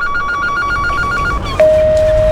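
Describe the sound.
An electronic telephone ring warbles in a steady repeating pattern for over a second, unanswered, then cuts to a single sustained, even beep tone that runs to the end.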